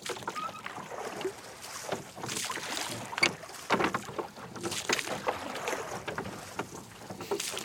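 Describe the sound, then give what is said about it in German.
Oars pull a rowboat across a lake, with many repeated watery splashes and drips from the strokes over a soft hiss of wind. No one speaks. “Aber hören Sie doch mal auf zu rudern.”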